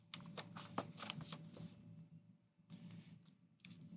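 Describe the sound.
Faint rustling, flicking and shuffling of stiff 4x6 index cards being handled, with soft irregular paper slaps and pauses between bursts.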